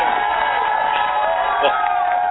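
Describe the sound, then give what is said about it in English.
Audience cheering with whoops and shouts, a steady, dense burst of crowd noise lasting a couple of seconds. “you're going to get an applause just for those two random ass things.”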